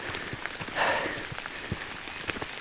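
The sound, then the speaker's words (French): Steady rain falls in a dense, continuous hiss, with scattered soft drop taps and no voices. “Sous la pluie,”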